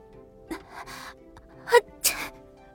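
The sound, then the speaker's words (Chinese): A young woman sneezes once in a palace hall where a zither is being played. The sneeze is a sharp, breathy burst that follows brief softer breath sounds. “正在映雪宫里听白下抚琴的陆雪儿突然也一个喷嚏，伸手揉了揉鼻子瞄白下。”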